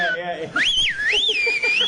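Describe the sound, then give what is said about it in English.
A man whistles a wavering melody, the pitch sliding up and down in smooth loops, clear and fairly loud, with a short pause before the tune resumes. “So then there's always a guy who whistles.”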